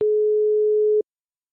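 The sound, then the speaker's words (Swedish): After a number is dialed, the phone line gives a single steady mid-pitched tone about one second long, which then cuts off into silence. “Jag slår in numret.”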